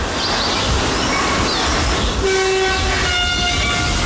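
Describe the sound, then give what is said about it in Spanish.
A train nears a station platform, sounding warning signals as it comes up to a level crossing: a steady, loud rumble throughout, with sustained horn-like tones joining partway through and holding to the end. “se espera el paso de un tren que está a punto de llegar. Lo sabemos porque ya escuchamos de fondo los avisos sonoros que va emitiendo conforme se acerca a un paso a nivel”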